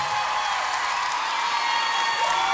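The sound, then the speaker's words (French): An audience cheers and applauds for a singer at a live concert, a dense, continuous wash of clapping mixed with shouts and whoops at a steady level. “Du bruit pour Marguerite, s'il vous plaît. Du bruit pour Elena, du bruit, du bruit.”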